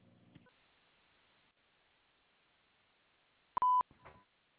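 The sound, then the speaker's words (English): A voicemail recording tone sounds as a single short, loud, steady beep after near-silence, followed by a brief faint rustle. “At the tone, please leave a message.”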